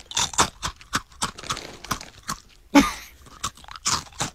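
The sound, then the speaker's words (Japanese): Crunching of caramel corn puff snacks being chewed: many sharp, irregular crisp crunches with short gaps, loud and dry, with no talk. “キャラメルコーンか。あ、なんて言うんだろう。今多分皆さん気になってると思いますよ、 うん、 でもね、あ、美味しいな、これ美味しいな。”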